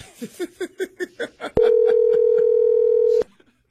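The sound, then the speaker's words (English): Ringback tone of an outgoing phone call: one steady, even tone lasting under two seconds. It follows a quick run of short, evenly spaced pulses and ends abruptly into near silence. “I'm going to call them one more time.”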